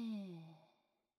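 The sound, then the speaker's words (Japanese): A single long exhale after a held breath during a guided breathing exercise, starting as a soft voiced sigh and fading to silence in about a second. “息を大きく吸って、一瞬止めて、吐いて、”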